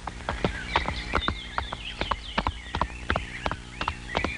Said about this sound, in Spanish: ¡Véngase, caballo! ¡Véngase, véngase!